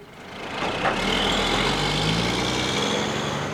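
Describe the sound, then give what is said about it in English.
A truck engine rumbles low and steady as the truck turns onto the highway out of Seeley Lake, Montana, after delivering one of a closing lumber mill's final loads of timber. The drone holds at an even level throughout, with no voices. “a backdrop of familiar sounds like this one, a truck turning onto the highway out of town after delivering one of the mill's final loads of timber”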